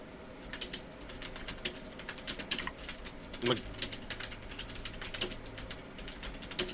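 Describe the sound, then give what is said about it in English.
Someone types on a computer keyboard, producing many quick, fairly faint key clicks in uneven bursts, with one sharper, heavier keystroke partway through. “Okay, I'm typing.”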